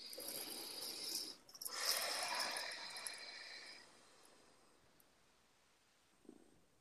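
A deep breath is taken during a guided affirmation exercise. It comes as a soft, airy inhale, a brief pause, then a longer fading exhale, followed near the end by a faint short sound; no talking.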